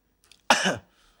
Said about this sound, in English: Turn your head and cough.